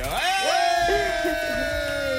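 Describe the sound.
A confetti blower goes off to mark a $500 prize winner: a loud, continuous horn-like blast with warbling, sliding tones that settle into a steady held note.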